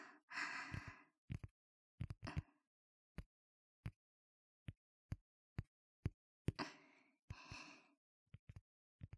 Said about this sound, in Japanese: これはコルクボードにタッピングしてるの。